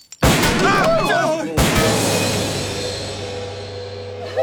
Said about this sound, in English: All right. Stand back. Stand back. I'm opening fire. Look out. Reloading.